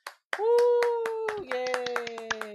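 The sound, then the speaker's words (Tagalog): Clapping as applause from a live studio audience: many sharp, quick hand claps in an uneven rhythm over a steady held tone that steps down in pitch midway. “Palakpakan tayo dyan, live studio audience.”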